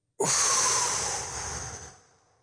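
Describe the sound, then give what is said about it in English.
A deep breath in and out, starting suddenly as a loud, airy rush and fading away over about two seconds. “1, 2, 3, deep breath in. And out.”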